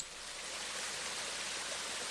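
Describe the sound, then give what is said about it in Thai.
Water gushing hard from a tap makes a steady, unbroken hiss that stays even and fairly faint throughout. “อุ๊ยแม่น้ำพุ่งจากก๊อกออกมาเลยนี่เปียกหมดเลยครับ”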